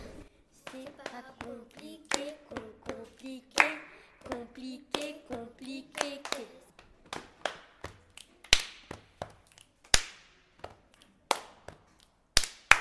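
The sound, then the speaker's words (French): Sharp hand claps and finger snaps from a children's body-percussion chant, mixed with young voices speaking in rhythm. Many crisp hits come in a steady pattern, and they become sparser and more spaced toward the end. “Quand on dit pli, on claque des doigts. Quand on dit qué, on claque des mains.”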